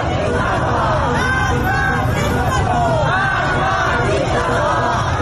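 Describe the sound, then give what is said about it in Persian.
Young protesters in Sepehr Street, Tehran, chant a slogan while holding hands in a circle. Loud massed voices rise and fall over a thick, continuous layer of crowd noise. “در آن سوی شهر در خیابان سپهر تهران معترضان جوان دست یکدیگر را گرفتند، حلقه بستند و شعار مرگ بر دیکتاتور سر دادند.”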